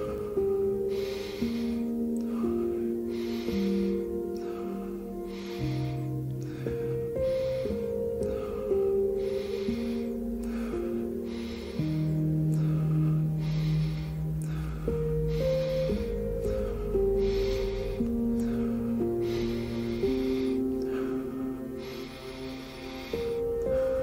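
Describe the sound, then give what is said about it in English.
Deep belly breathing in a guided Wim Hof breathing session: many slow, rhythmic, airy inhales and exhales that repeat steadily, set over soft background music with sustained low notes. “deep from the belly and inhale in a wave-like motion. Don't force anything. Let your inhale expand naturally without tensing up your neck.”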